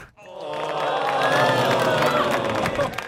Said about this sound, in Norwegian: En stor applaus.